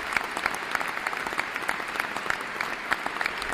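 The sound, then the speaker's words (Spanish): Steady applause from many hands for a classmate after a presentation on world population, dense, even clapping throughout without voices. “Un fuerte aplauso para nuestro compañero Lars, estuvo hiper bien.”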